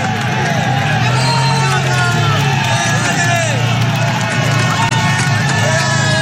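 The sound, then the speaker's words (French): A huge crowd of tens of thousands of spectators roars and cheers cyclists on the 21-hairpin Alpe d'Huez climb during a road race, a dense, unbroken wall of shouting voices and noise throughout. “ça te file le frisson d'entendre ça, la foule qui encourage les coureurs dans ce stade incroyable de 21 virages de l'Alpe d'Huez.”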